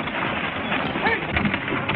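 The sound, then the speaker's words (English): Horse teams and a wagon move along a trail, their hooves and wheels blending into a steady, rough clatter with no clear separate beats. “They stop beside the trail as the teams start to pass. Cash and Curly are among the riders. The front wagon approaches Cash and his men.”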